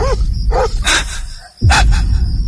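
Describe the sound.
A dog barks and yips several times in short, sharp bursts, loud over a steady, low background rumble.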